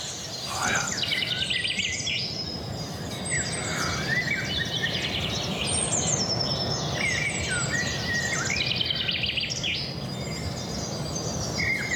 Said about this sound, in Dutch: Dat is nu Merel en Vink die het meest aanwezig zijn.